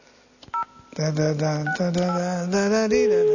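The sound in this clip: Telephone keypad tones pressed in sequence to pick out a French children's tune, the beeps starting short and sparse, then running into a melodic line with a voice sounding along over the tones.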